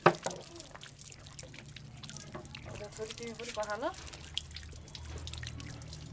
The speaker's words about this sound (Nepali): योपालि उहाँ आफ्नै छोरीसँग हात धुँदै हुनुहुन्छ